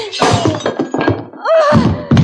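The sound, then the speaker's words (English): A bourbon bottle strikes a man with a short, dull thunk, surrounded by rough vocal sounds and commotion. “That was a nice shot with that bottle. But what a waste of good bourbon.”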